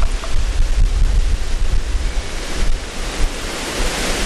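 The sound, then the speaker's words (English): Strong, cold wind roars outdoors and buffets the microphone in continuous loud, low gusts, with no voices. “can you hear the horrendous wind?”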